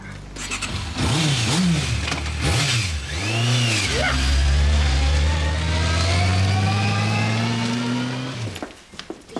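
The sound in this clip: A car drives off, its engine revving up sharply twice and then settling into a loud, steady acceleration drone that fades slightly at the very end. No voices are heard.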